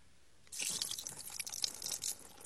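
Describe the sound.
Broth pours onto a rock, a splashing, trickling liquid sound that starts after a brief quiet moment and continues fairly faintly for about two seconds.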